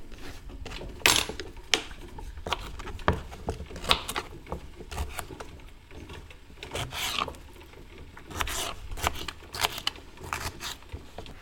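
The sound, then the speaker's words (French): Half a black radish being peeled and roughly chopped in a kitchen: many irregular, fairly faint rasping scrapes and sharp knife knocks against a board, scattered unevenly throughout with no talk. “Donc il faut soit un réfort ou un radis noir, un demi en fait. On va l'éplucher. Et puis on va le couper grossièrement et on va le mettre dans le bocal.”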